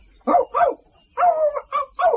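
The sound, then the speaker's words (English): A lively Yorkshire Terrier barks in several sharp, mid-pitched yaps. They come in quick bursts, and one is drawn out longer. No voices are heard. “The dog was a Yorkshire Terrier with a slight lisp, but lively and full of beans.”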